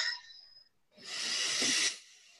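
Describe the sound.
A single deep breath taken during a guided relaxation exercise: a long, airy hiss that swells and holds for about a second, then fades, with no talking over it.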